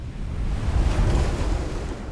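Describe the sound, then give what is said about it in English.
Waves of a murky brown sea rolling onto a litter-strewn shingle beach and breaking against a sea break, heard as a continuous, low, rushing roar that swells slightly in the middle, with no distinct separate crashes and no voices. “The foamy white waves of a murky brown sea roll onto a litter-strewn shingle beach and crash against a sea break stretching out into the water.”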